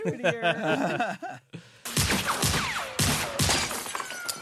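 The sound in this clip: Gunshots ring out in a film scene, with a few sharp, loud bangs mixed with shattering, crackling debris. A brief stretch of voice comes before them.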